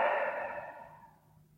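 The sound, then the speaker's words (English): A soft, airy breath is exhaled through the mouth as part of a calming physiological sigh. It is one steady release that starts fairly strong and fades away. “The physiological sigh is a great way to calm your nervous system down. The two inhales. And exhale through the mouth.”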